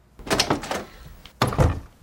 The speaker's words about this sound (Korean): 그리고는 대기실의 문을 열고 들어가 즉시 문을 닫았다.